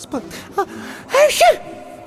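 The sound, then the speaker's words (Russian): A voice acts out a woman with a cold sneezing: a few short gasping intakes of breath, then a louder, breathy, voiced sneeze burst near the end. “Она кивнула, всхлипнула как-то по-детски и снова чихнула.”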